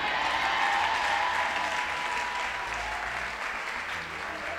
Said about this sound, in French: Que quelqu'un dise Amen, Amen, acclamons Dieu.